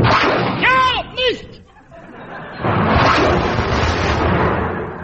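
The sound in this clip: A big gun fires with a loud, broad, rumbling blast that lasts a couple of seconds and slowly fades. Voices and chuckling laughter come before it.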